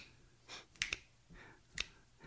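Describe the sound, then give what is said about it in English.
Fingers snapping, a few sharp, faint clicks in an uneven rhythm, two close together and then another about a second later, with no talk over them. “But if I started snapping my fingers,”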